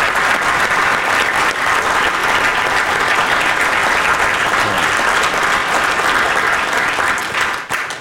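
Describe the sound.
An audience applauds a speaker who has just been introduced. The clapping is dense and steady for about eight seconds, then drops off sharply at the very end.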